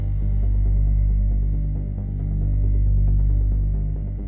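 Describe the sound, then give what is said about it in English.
A gigantic machine being fired up gives a loud, deep, steady hum, thick with low harmonics, that throbs slowly in loudness. Two brief bursts of faint hiss sit above it, and no voices are heard. “I know he's really firing up the panatrope, the gigantic machine we use to bombard you with our words, our music.”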